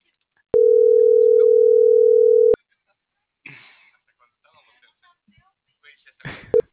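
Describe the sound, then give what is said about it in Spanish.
A telephone dial tone plays during a call being dialed. It is a single steady mid-pitched tone lasting about two seconds. Faint, scattered voice-like sounds follow. “ya desde aquí ahora les estoy marcando”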